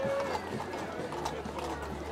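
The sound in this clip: Horse hooves clip-clopping through a crowd at a public event, a faint, uneven beat of hoofbeats largely masked by people talking nearby.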